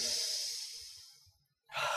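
A long, steady exhale during a deep breathing exercise for meditation, loud and airy, fades into a short silence before a sharp, full inhale begins.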